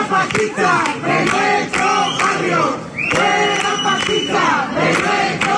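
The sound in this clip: Crowd protesting an eviction outside a house on calle Larga in Jerez while eviction-company workers are inside: loud rhythmic chanting punctuated by regular sharp percussive beats, sustained throughout.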